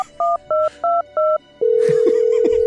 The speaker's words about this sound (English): I dial up the king.